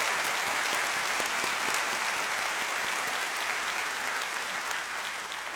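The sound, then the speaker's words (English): An audience applauds in praise with steady, dense clapping that holds an even level throughout and eases off slightly at the end, with no voices standing out. “And you should say, "Lord, I applaud you. I thank you. I adore you. I appreciate you. I thank you. I exalt you. I praise you. I worship you." That's what it sounds like.”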